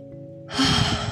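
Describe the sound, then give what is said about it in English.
A deep breath drawn during a guided relaxation exercise: a single airy, breathy rush that starts about halfway through and swells to a steady moderate loudness until the end, over a faint low steady tone, with no talking. “Let's all take a deep breath together.”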